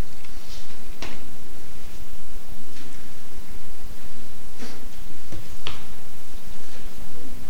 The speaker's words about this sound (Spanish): Bueno, aquí yo estoy buscando dónde están los apuntes de este estudio y yo lo encontré en la séptima pestaña.